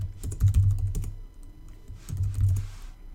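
Keys clatter on a computer keyboard as a username is typed, in two short bursts of quick, light keystrokes separated by a brief pause.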